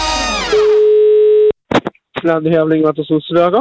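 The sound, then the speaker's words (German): A telephone dial tone, a steady, loud single-pitch hum lasting about a second, comes after a brief swooping voice-like sound. It cuts off abruptly and is followed by talking voices. “Das ist das Telefon bei Radio Zürichsee.”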